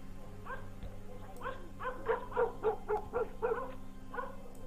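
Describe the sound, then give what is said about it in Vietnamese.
A neighbour's dog barking persistently in the distance: many faint, short, yappy barks in an uneven run over a steady low hum, with no talk. “Thị Tất cố lắng tai nghe, chỉ thấy tiếng chó nhà hàng xóm vẫn cứ sủa văng vẳng, dai dẳng, nhấm nha nhấm nhẳng đến khó chịu.”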